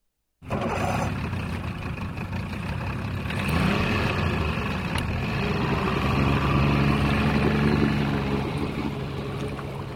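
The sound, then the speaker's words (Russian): A motorboat engine putters as the boat pulls away from a harbor, starting abruptly and then running on as a steady, loud, low rumble with a slight swell partway through and no voices. “Моторка тарахтя отошла от гавани.”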